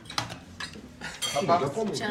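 Plates and cutlery clatter and clink as dishes are passed around a family table during a home meal of couscous and fish, with a steady jumble of ceramic knocks and scrapes that grows louder toward the end.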